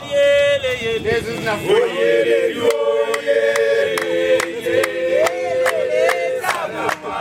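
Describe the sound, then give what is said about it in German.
Men in traditional clothing singing a loud greeting to tourists in the street, sustained chanted voices over a droning tone, joined partway through by a run of sharp, regular percussive hits. “Unsere fünfköpfige Truppe wird sofort von Straßenhändlern angesprochen. Männer in traditioneller Kleidung begrüßen uns singend.”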